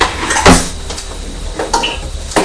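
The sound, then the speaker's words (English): A knife is taken from a kitchen drawer with metallic clatter of cutlery, a few sharp clinks and knocks at irregular moments, fairly loud, with no talk. “I'm just getting a knife from the drawer.”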